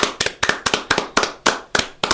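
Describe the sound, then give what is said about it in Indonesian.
Applause for a child after a sung children's game song comes as brisk hand-clapping in a steady, regular rhythm. Repeated bursts of several quick claps each ring out sharply and evenly, with no voices between them. “Tepuk tangan untuk anak pintar.”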